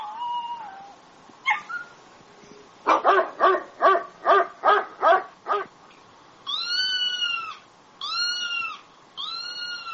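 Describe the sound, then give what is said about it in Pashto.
Stray dogs barking on the streets in Turkey: a single yelp, then a rapid run of many sharp barks. A few longer, higher-pitched whining cries follow, with faint background noise underneath. “ترکیه یو له هغو هیوادو څخه دی چې کوڅه ډب، سپی او بې څښتنه پیشوګانې ډېرې لري.”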